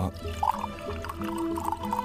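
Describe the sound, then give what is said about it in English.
Tea poured from a pot into a cup: a continuous splashing, gurgling stream of liquid with small bubbly surges, steady in loudness for about two seconds, with no voices. “pour a cuppa, have some tea. It was a very, like a waterfall of tea.”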